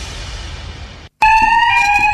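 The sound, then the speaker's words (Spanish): An alarm sounds with a loud, steady, piercing tone and strong harmonics. It starts after a stretch of noise and a brief silence, then holds unbroken to the end. “¿Un sistema de alarma para cuidar tu sorgo? Hay otra manera de protegerlo.”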